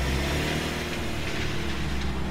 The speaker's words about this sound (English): starts her car. She pulls off from the curb.